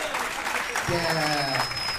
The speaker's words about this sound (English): Give them a big round of applause.